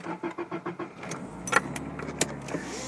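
A car heard while riding in it: a few soft rhythmic thumps, then a steady low engine rumble with occasional sharp clicks and rattles over it.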